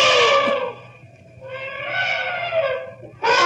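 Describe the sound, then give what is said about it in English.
An elephant trumpets as it charges, giving loud, brassy, harmonic blasts. A long call dips and fades, a second sustained call follows, and a sharp new blast breaks in at the end. “That elephant picked you up and threw you 50 feet.”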